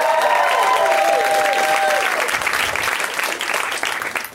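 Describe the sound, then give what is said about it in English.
Audience applause at a live comedy show, a loud, continuous patter of many hands that tapers slightly toward the end, with a voice speaking over the first half. “A round of applause for Rhea”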